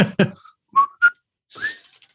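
A person whistles three short notes, the last sliding upward, after a brief voiced sound at the start.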